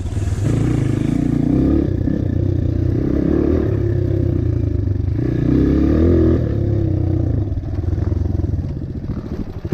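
A Honda CRF230F dirt bike engine running after the failing aftermarket CDI was swapped back to the stock unit, a steady, loud, rough putter with slight revs and some clatter throughout.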